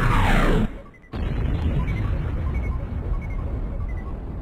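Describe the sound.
A missile-strike explosion hitting a village in a 2003 political online game about the war on terror: a loud roar cuts out briefly, then a sudden heavy boom bursts in and rumbles on steadily to the end.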